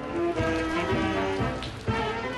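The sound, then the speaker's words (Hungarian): Rain falls on a cold, unfriendly day in Sarajevo, a steady hiss of drops with a few faint, irregular taps under a low, continuous tone. “Barátságtalan, esős idő fogadta a delegációt, amit a miniszterelnök is a saját bőrén érzett, szó szerint.”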